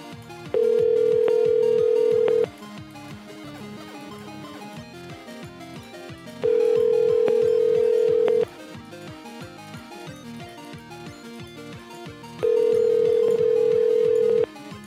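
A telephone ringing tone on a call: three steady, mid-pitched tones of about two seconds each, separated by roughly four-second gaps.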